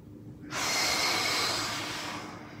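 A deep, slow breath taken during a kneeling stretch on one knee, heard as a long airy hiss that starts abruptly after a short pause and slowly tapers off over about two seconds, alone.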